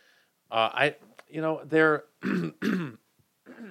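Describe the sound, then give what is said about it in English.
A throat is cleared in a few rough, gravelly bursts mixed with speech, fairly loud and close. “Every now and then something gets caught in the throat there. Pardon me, guys.”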